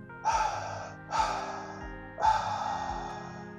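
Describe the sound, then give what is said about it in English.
A person breathing deeply, three long airy breaths in a row, each rising sharply and then fading, the last one held out longest, fairly faint and with no talk. “Inhale. Tiny hold. Exhale, release.”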